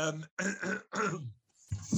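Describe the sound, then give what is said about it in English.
A person clears their throat and coughs in a few rough, raspy bursts with short pauses between them, loud and without other sounds. “apologies again for all the coughing and sputtering”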